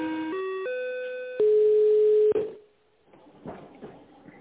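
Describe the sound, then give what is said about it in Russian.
Electronic telephone tones play while a call is transferred to an internal extension: a few stepped tones that change pitch, then a longer steady tone that cuts off, leaving faint line noise. “Перевод звонка на внутренний номер 500. Минуточку.”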